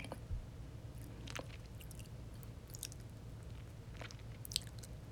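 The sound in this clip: Faint wet mouth sounds of licking: scattered soft smacks and moist clicks at irregular moments over a steady low hum, with no talk.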